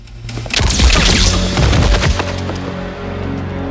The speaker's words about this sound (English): A commando leaps out from cover and kills him. The commandos shoot two more guards.